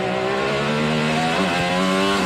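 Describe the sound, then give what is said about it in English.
An IndyCar race car speeds around a Detroit street circuit, its engine a loud, sustained high-pitched whine that holds throughout, with a brief shift in pitch partway through. “That's driver Kyle Kirkwood ripping his IndyCar around Detroit back in May.”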